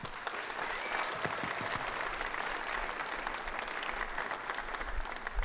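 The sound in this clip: Applause from an audience welcoming a guest speaker: a faint, even wash of many hands clapping that holds steady for several seconds without cheering.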